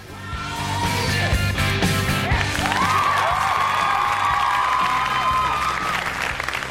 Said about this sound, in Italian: Applauso a questo signore napoletano, applauso.